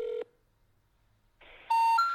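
Telephone keypad dialing tones ring out as a number is entered. A short tone comes first, then a pause, then a quick run of a few tones that shift in pitch from one to the next.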